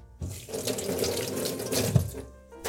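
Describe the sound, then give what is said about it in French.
Tap water runs as hands are rinsed while making a pear and cream dessert. The flow is a steady splashing rush with one sharper splash near the end, then it eases off briefly before resuming. “Petit coup de lavage de main, on se rince les mains”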